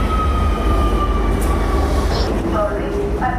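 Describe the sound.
Metro train running on line 1 toward Torrent: a loud, steady rumble with a thin high whine, and brief squealing tones near the end.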